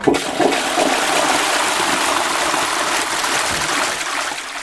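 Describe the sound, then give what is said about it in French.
A toilet flushes with a loud, continuous rush of water that holds steady for several seconds, a broad hissing gush with no voices over it. “Pierre Tchernia racontait qu'à l'ORTF, dans les années 1950, il ne fallait pas tirer la chasse des toilettes durant une pièce dramatique en direct. Sinon, c'était les chutes du Niagara à l'antenne.”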